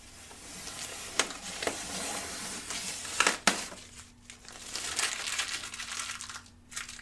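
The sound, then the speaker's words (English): Tape being worked into fibers and pulled off gives a steady, crackly, sticky rustle with a few sharp snaps standing out along the way, loudest around the middle. “Work that tape into the fibers and pull it.”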